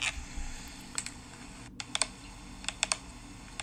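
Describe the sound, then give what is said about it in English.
Fingernails tap on a glass jar of pickles, making several light, sharp clicks at irregular moments, some in quick pairs, quiet and with no voices. “she's like tapping her nails against, it's a jar of pickles”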